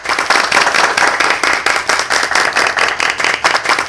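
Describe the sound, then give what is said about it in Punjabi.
Loud, dense applause in tribute to singer Kishore Kumar, many hands clapping together with a pulsing, wave-like swell that continues evenly to the end. “ਇਸ ਦੇ ਲਈ ਉਹਨਾਂ ਨੂੰ salute ਹੈ ਅਤੇ ਤਾੜੀਆਂ ਬਣਦੀਆਂ ਨੇ।”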